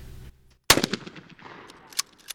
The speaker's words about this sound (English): Sandy Pike is giving advice as a new member prepares to aim his shotgun and attempts to shoot a clay target out of the air. She tells him to lift up his shotgun, and when he's ready, pull.